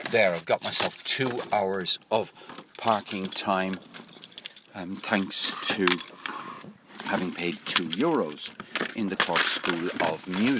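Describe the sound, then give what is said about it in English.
A set of keys jangles and clinks as a man packs up to leave his car. The metallic rattling comes and goes under his steady talking throughout. “The sounds you can hear is a man packing up to leave his car with about 2% battery. He's carrying a set of keys,”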